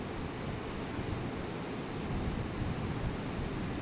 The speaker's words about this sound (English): I wonder if you can hear the ocean in the background.